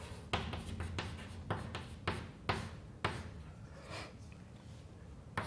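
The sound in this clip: Writing on paper during a maths derivation: a steady scratchy rub of pen strokes punctuated by a few sharper taps and flicks, with no talking.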